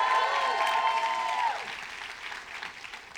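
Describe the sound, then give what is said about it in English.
A church audience cheers and applauds for Jesus during a worship service, with a held tone sounding over the clapping at first before the applause fades to scattered, fainter claps. “Come on, can you make some noise for Jesus? Come on.”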